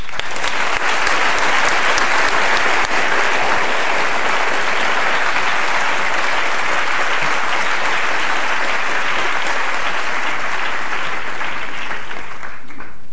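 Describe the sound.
Audience applause at a London School of Economics lecture, welcoming an economist before he speaks: loud, dense, steady clapping that holds for the whole stretch and thins only slightly at the very end, with no voices.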